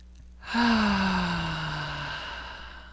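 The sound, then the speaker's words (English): A deep, voiced sigh as part of a guided breathing exercise: a long exhale that starts abruptly, slowly falls in pitch, and fades over about two seconds. “let's just take a nice deep breath.”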